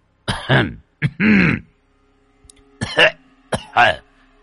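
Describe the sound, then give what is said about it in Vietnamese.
Long, raspy coughing and throat-clearing from an elderly man in a ghost story. Several harsh, throaty bursts come in two clusters separated by a quiet pause. “Rồi một chàng ho dài vang lên.”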